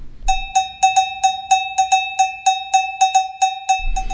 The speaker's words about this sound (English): So I can import those as well as the sounds like this, the boomer, and all these other sounds, like the main ones I use, like cowbell.